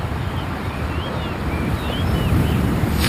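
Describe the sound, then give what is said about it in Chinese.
Monsoon wind blows across the Loess Plateau in a steady, loud, low rumble of buffeting gusts that continues without a break. “季风常年吹拂着黄土高原。”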